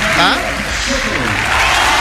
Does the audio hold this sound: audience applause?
yes